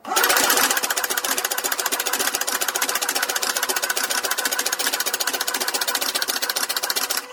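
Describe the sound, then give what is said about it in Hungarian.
A card-dealing machine deals out a full 52-card deck, making a loud, dense mechanical whirring clatter of very rapid, even clicks that runs steadily for about seven seconds. “Ennyi idő volt, amíg leosztott egy paklit, 52 lapot kidobott.”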